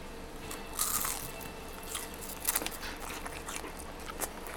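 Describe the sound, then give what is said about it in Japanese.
Crisp crunching bites into deep-fried pufferfish karaage, with a few sharp, bright crackles spread across a faint, steady background hiss. “フグの唐揚げをお願いしました。これフグってね、本当にあの身がポロッと取れるから食べやすいんですよね。”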